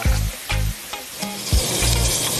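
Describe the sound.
Juices sizzle and drip from half-boiled crab on the grill, a crackling hiss broken by several low thumping pulses.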